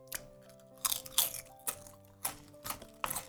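Crunching and chewing while eating: many short, crisp crunch bursts in an uneven rhythm, faint overall, over a low steady hum with no talk.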